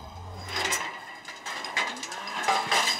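A calf moos with a brief, low call at the start on a cattle farm during hoof trimming, followed by scattered rustling and clattering sounds.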